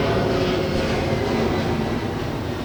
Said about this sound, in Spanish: Ahí estaba pasando el avión. Sí, estaba pasando el avión.